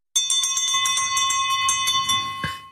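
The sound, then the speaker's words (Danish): A bell rung to open a parliamentary session sounds in a rapid run of many bright metallic strikes. A sustained high ring carries across the strikes, and a heavier strike comes near the end before the ring fades. No voices are heard. “Klokken har ringet. Mødet er åbnet.”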